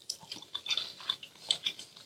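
Close, faint chewing of Vietnamese cinnamon-spiced fermented sausage, with many soft wet bites and small crunchy smacks in an irregular rhythm. No talk is heard.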